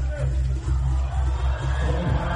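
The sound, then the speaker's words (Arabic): Spectators at a sports match make a steady, dense crowd roar and babble that runs through the whole clip, with only brief dips in loudness. “شفت ردة فعل الجمهور”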